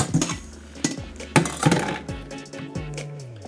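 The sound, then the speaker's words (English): A metal colander and a hot pasta pot clank and clatter as they are handled, with several sharp metallic knocks and ringing scrapes spaced irregularly over a few seconds. “Where is my strainer? Colander? There it is.”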